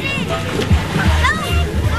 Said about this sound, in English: At Cordelia Pool yesterday, kids and families were splashing in the cool water